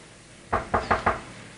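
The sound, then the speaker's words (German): Knocks on the microphone membrane of a walkie-talkie, struck by hand after its antenna is pulled out: four quick, dull taps at an even pace, alone over a low background hiss. “zieht langsam unter der Bank die Antenne seines Funksprechgerätes heraus und klopft dreimal gegen die Membran”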